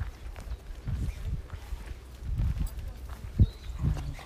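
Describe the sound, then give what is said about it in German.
Footsteps descend a small wooden staircase on a forest path during a walk, a few irregular soft thuds with one sharper knock near the end, under low outdoor background noise and some voice sound. “So, jetzt gehen wir hier eine kleine Treppe, eine kleine Waldtreppe runter.”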